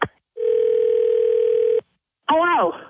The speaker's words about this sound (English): I'm going to dial her back real quick and just say you missed the call or something.